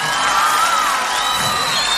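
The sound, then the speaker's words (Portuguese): Crowd cheering and applause at a religious stage event, a continuous loud roar with whoops and thin, high whistling tones gliding over it from start to finish. “Por favor, uma salva de palmas.”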